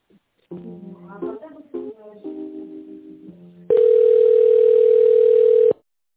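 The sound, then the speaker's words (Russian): A steady single-pitched telephone tone sounds as a call is put through to another person. It follows a stretch of talk, holds loud and unchanging for about two seconds, then cuts off abruptly. “Не могу точно сказать, я вас соединю с Тимуром. Секундочку.”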